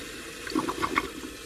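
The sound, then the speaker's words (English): A toilet flushes and its cistern, fitted with a float, refills with water: a brief, irregular splashing rush that swells and then fades, heard alone. “This fills up with water, and the float helps it to stop.”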